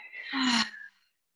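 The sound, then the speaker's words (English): A deep breath, inhaled through the nose and exhaled through the mouth, heard as one airy, breathy swell lasting under a second before fading into silence. “I would just like everyone to take a nice deep inhale through the nose, exhale through the mouth.”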